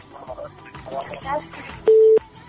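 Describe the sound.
A short, steady telephone line tone sounds as the next caller is connected to a radio call-in show. It follows a stretch of speech and holds evenly for a fraction of a second.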